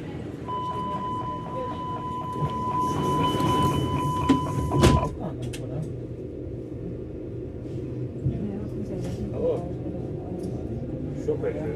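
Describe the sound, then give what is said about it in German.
An underground U-Bahn train running with passengers aboard: a steady low rumble of the ride throughout, with a sustained whining tone over the first half that stops at a sharp clank, after which the rolling rumble carries on. “Deswegen bin ich dann die Treppen hochgestürmt, hab mir in die Bahn geschmissen und ab geht's.”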